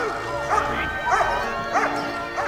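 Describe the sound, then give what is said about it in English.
Alsatian dog barking on a lead while soldiers lead families away from a tenement building. Four mid-pitched barks come at a steady, even pace against a continuous background murmur. “past a barking Alsatian on the lead”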